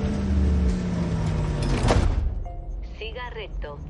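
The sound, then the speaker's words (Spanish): A car engine rumbles as the car reverses out of a garage while the garage door slides closed. A sharp bump comes partway through, then the engine fades and a voice speaks over faint background. “Gira el vehículo para salir a la calle mientras el garaje se cierra de nuevo.”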